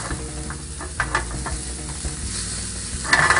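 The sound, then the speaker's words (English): Leftover food browning and sizzling in a skillet as it is shaken, giving a steady hiss broken by light scraping and rattling pulses that swell louder at the end. “Anytime you want to look professional, shake your skillet.”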